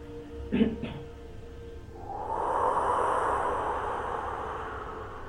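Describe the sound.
Slow exhalation during a guided breathing exercise: after a brief puff, a long, steady, airy breath swells and then gradually fades, soft and breathy.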